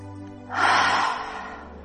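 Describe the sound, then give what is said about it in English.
A long, deep breath out voiced as a soft breathy 'ha', starting abruptly and fading slowly, alone with no talk. “Long, deep breath in, and as you breathe out with the ha sound.”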